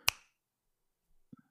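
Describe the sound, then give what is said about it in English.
A single sharp finger snap of the kind used as percussion in country music rings out at the start, followed by silence and then a few faint, soft knocks near the end. “You hear that? What's that? That's the sound of the country snap.”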